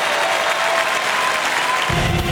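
Audience applause for a performer: a dense, steady patter of many hands clapping that holds at an even, fairly loud level from start to finish without a break.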